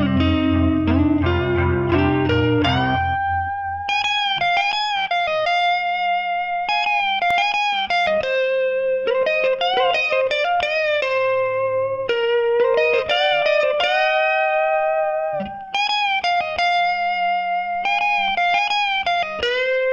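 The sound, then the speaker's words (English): Electric lead guitar solo played through effects, opening with a few dense chord strikes before shifting to loud, sustained single-note melodic lines with bends and vibrato, heard alone without talk. “Here's the lead guitars coming in.”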